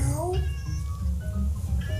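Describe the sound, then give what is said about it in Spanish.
A cat meows several times: a short rising call at the start, then further drawn-out meows, all over a steady low background hum. “Esto dice el gato.”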